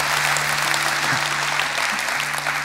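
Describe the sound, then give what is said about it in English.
A crowd at a talk breaks into sustained applause, a loud, dense clatter of clapping over a faint low hum. “You can clap for that if you want to.”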